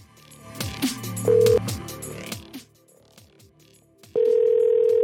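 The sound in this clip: A steady telephone dial tone sounds while a call is being placed from a personal phone number. A short beep comes early on, then the continuous loud tone holds from about four seconds to the end.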